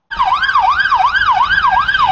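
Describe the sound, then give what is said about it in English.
An ambulance motorcycle's siren wails while riding through city traffic in Israel, rising and falling quickly in a steady cycle, about six sweeps. It is loud and continuous over a low road rumble. “This is what it's like to ride through the streets of Israel on an ambucycle. It weaves through traffic where an ambulance cannot.”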